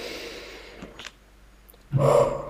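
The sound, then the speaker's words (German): One deep breath drawn in through the nose, a soft airy inhale that swells after a near-quiet stretch and fades toward the end. “Nimm dir mal einen kleinen Moment und atme mal tief ein durch die Nase”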